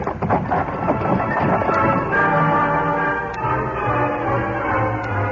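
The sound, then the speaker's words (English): Hooves of a horse named Silver clop rhythmically alongside a rolling wagon on a road, a steady, busy patter of hoofbeats and wheel rattle that continues throughout. “A short time later, the horseman and the wagon turned off the road and headed south toward the Chisholm Trail. Come on, Silver. Get up there.”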